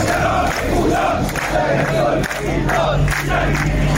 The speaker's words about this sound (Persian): این صدای اعتراض کارگران گروه ملی صنعتی فولاد اهواز است.